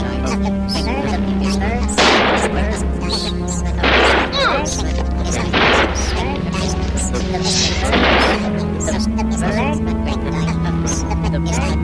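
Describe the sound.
Several gunshots crack out as sharp bursts at irregular intervals over a steady, sustained tonal drone.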